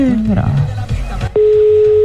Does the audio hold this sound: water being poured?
no